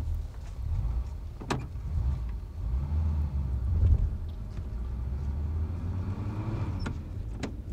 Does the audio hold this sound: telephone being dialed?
no